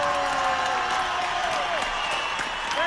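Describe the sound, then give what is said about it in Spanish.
Applause and cheering from a live show audience honouring Guillermo Ochoa: a dense, steady wash of clapping and crowd noise that holds at an even level throughout, with a voice carrying faintly above it. “El mejor aplauso para Guillermo Ochoa.”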